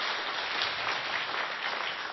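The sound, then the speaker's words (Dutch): Applause from an audience for children at a church gathering: dense, steady clapping with no gaps that holds at an even level throughout, with no voices over it. “Zullen we even applaus doen voor de kinderen eerst?”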